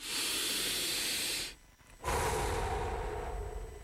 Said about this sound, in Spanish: Detenete. Respira profundo.